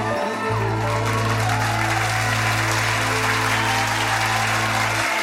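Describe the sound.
Applause from a crowd at a Punjabi performance, a continuous, loud wash of clapping lasting the whole stretch, with a steady low hum beneath it.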